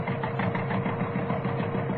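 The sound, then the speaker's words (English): A tractor-driven saw bites into a tree, its blade set about six feet up: a loud, steady mechanical drone with rapid, even pulsing throughout and no voices. “Right, pressure on saw. Into tree. Well, it seems to be biting all right.”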